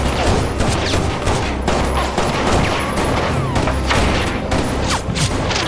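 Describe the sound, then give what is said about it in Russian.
Pistol gunfire in a film shootout, as a character standing beside a car shoots back around the corner of a building. Many sharp, loud shots crack in rapid, irregular succession over a dense, noisy background. “Сайкс, стоя возле машины, отстреливается. Сайкс отстреливается просто за угол здания.”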